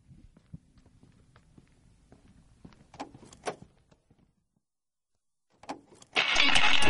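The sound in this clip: A car engine cranks and catches near the end, turning into a loud, steady roar after a brief quiet gap. Before it come low rumbling and a couple of sharp clunks.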